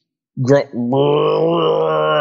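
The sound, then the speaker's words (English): A voice imitates a female cat in heat calling: a short, rising vocal cry, then a long, sustained, groaning wail that stays loud and steady to the end. “I don't know if you've ever heard it, but a female cat in heat”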